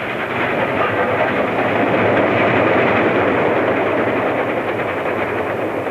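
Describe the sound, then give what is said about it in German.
A passing train at a railway switch gives a steady, loud rumbling roar with faint rhythmic wheel clatter, even in level throughout, with no voices. “Ich schicke die Züge, die sie fortbringen, bald nach rechts, bald nach links.”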